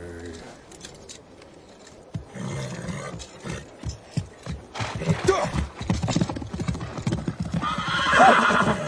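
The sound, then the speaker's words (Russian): Two horses trot away, their hooves clip-clopping in a steady rhythm that grows louder. A horse whinnies near the end. “Он разворачивает коня и вместе с Тайчаром рысью скачет прочь.”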